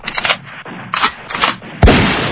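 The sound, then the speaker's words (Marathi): A gunshot sound effect of a soldier firing at an enemy fighter. A few softer bursts come first, then one loud, sharp crack with a deep boom that rings on to the end. “आबुताबावर name धरीत गोळी चालवली.”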